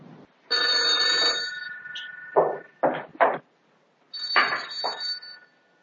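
A telephone rings in two long bursts of bright, buzzing bell tone separated by a short gap, loud and steady, with no talk over the rings.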